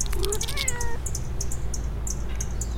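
A black cat meows outdoors after coming out of bushes. Brief, clear meowing comes early, followed by a steady background hiss with no more calls.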